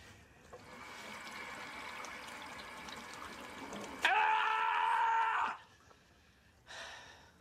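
Running water from a tap as hands are washed over and over, a steady hiss that swells into a louder, brighter rush before cutting off, then one brief final splash.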